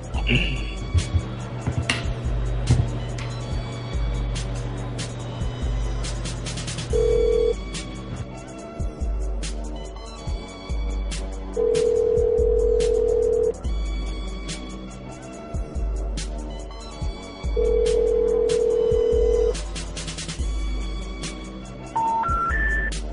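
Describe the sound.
A ringback tone from a phone call placed to a business, repeating a few times in long steady buzzes under continuous conversation.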